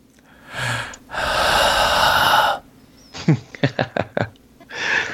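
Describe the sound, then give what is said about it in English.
Exaggerated heavy breathing into a microphone: a short breath, a long loud rushing exhale, then a quick series of sharp, puffing snorts and a final breath. “Should I breathe heavily?”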